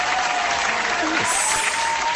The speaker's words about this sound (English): We should also clap for them.